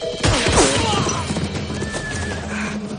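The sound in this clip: A horse whinnies as a rider charges toward people, a loud neigh near the start that falls in pitch, set against a dense, rumbling background of busy noise.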